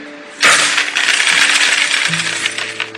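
Gold coins dropping onto a pile: one sudden metallic impact, then a sustained bright jingling clatter that carries on and eases only slightly toward the end.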